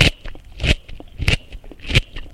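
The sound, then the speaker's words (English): A crunchy carrot being bitten and chewed: a few sharp, loud crunching bursts at a steady, spaced rhythm, with smaller crackles between them and no voices. “And this is a crunchy carrot.”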